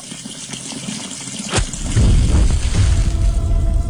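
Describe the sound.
Water running from a tap, the kind of Colorado tap water said to catch fire when a lighter is held near it, as a steady rushing stream that swells much louder about halfway through and stays loud to the end.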